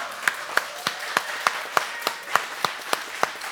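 Audience clapping as people rise to welcome a guest: a steady series of crisp, evenly timed claps over a constant hiss in the background.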